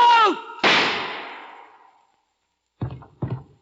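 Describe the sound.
A single loud gunshot fired by a detective in a radio drama, a sharp crack with a long decaying tail, followed after a pause by two dull thuds.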